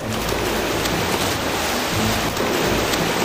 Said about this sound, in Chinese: 潜水员入水。